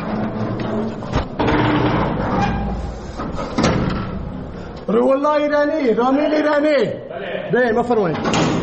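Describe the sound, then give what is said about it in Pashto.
A guard opens the heavy iron door of a prison in Herat, with a grating slide and a few sharp metallic knocks, followed by a man's voice calling out. “د هرات د زندان یو ساتونکی د دغه محبس اوسپنیزه دروازه خلاصوي”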